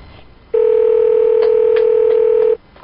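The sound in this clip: A steady telephone dial tone on a phone being used to call someone back holds one sustained, even pitch for about two seconds, with a few faint clicks over it, then cuts off abruptly.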